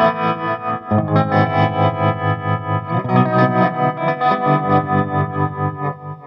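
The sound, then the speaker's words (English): Electric guitar chords played through a Moog tremolo pedal, with a little delay and a compressor, pulsing steadily in volume throughout; loud and sustained with no voices. “Just tremolo and a little bit of delay on that, and the compressors in as well. And what tremolo are you using for that? So that's the Moog. That's the Moog tremolo.”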